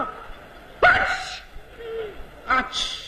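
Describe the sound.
A voice imitates a Beijing person's sneeze, as someone suffering from a cold, in a comic stage dialogue: two sharp, breathy vocal bursts separated by a pause.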